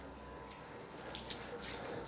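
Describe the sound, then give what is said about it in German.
Warm water at 28 degrees running while tortoises are washed: a faint, continuous trickle and splash with a light hiss, steady throughout. “Das ist wunderbar warmes Wasser, 28 Grad, so wie die Schildkröten das lieben. Die werden natürlich nicht nur zu Leopolds Geburtstag gewaschen,”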